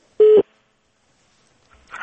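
A single short steady telephone tone sounds as a listener's call to a radio phone-in programme is cut off, followed by a long silence and then faint noise.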